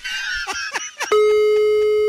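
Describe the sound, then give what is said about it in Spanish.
A telephone call sounds a steady electronic ringing tone after dialing. The single tone holds for about a second after a few brief, short sounds. “Órale, pues, ahí está. Le voy a marcar.”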